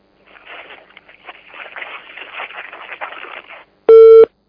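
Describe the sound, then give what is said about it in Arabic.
A telephone busy tone sounds after a call is disconnected: a stretch of faint, crackly line noise is followed by one short, loud, steady electronic tone burst at the very end. “انقطع الاتصال، عاودي بنا الاتصال مرة اخرى”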